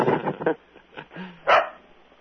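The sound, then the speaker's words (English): A dog barks at thunder with a few fairly faint, rough barks spread unevenly over two seconds, the last bark the loudest and sharpest. “That's my dog barking at the thunder.”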